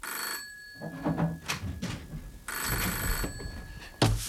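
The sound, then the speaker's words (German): A telephone rings in the morning in a radio drama, with bright electronic ring bursts separated by a stretch of softer, mixed sound, and another ring starting at the end. “Als ich am nächsten Morgen dabei war, mich zu rasieren, da klingelte das Telefon.”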